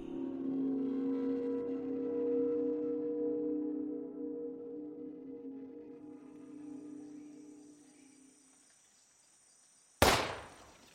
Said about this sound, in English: Earl's voice was overpowered by the resounding boom that echoed through the trees. In the span of 1 hour, he had wasted 4 bullets shooting at squirrels that were too fast for him.